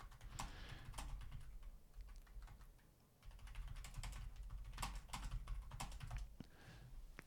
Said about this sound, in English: I'm just going to type that in.